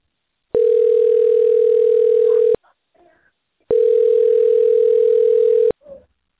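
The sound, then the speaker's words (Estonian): A telephone ringing tone plays while a call is being placed: two long, steady, loud electronic tones at one pitch, separated by a silent pause, with faint low sounds in the gaps. “Helistan Freshi.”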